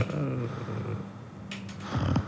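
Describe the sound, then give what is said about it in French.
A person imitating a cat's purr, making a low, rough, throaty rumble that comes in a few rolling stretches at moderate loudness. “Ah, vous ronronnez.”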